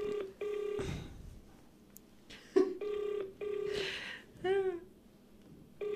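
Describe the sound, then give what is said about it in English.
A telephone call is dialed and rings, heard as several short, steady electronic beeps in an uneven rhythm. Brief noisy bursts break in between some of the beeps. “If she doesn't answer, it's not my fault. Are you sure you're not dialing Debonese's number?”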